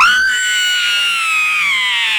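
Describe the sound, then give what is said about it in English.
A sustained, high-pitched scream sound effect that is loud and unbroken, rising briefly at the start and then sagging slowly in pitch as it holds for about two seconds. “hook me up here because I need the scream. Okay, I got to figure out which one the scream is on.”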